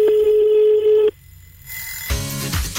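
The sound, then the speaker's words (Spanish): Telephone ringback heard as a radio host calls a listener: one steady, mid-pitched tone for about a second, then a quiet gap and a burst of rougher line noise. “estamos llamando a otro oyente porque, bueno”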